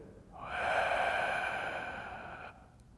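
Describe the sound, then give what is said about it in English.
A single slow breath taken during meditation, soft and faint, swelling and easing over about two seconds. “breathing out We, breathing in Yah, and breathing out We.”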